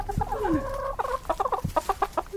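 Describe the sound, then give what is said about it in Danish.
Chickens clucking in a small backyard flock of five hens. A few drawn-out, tonal calls come first, then a rapid series of short, sharp clucks follows in an even rhythm, with no talk. “Og det er jo så vores lille hønsebesætning på 5 høns.”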